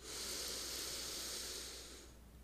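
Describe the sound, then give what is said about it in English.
A person takes one long, deep breath as a steady airy hiss lasting about two seconds, which fades toward the end. It is quiet and no one speaks. “Taking a deep breath”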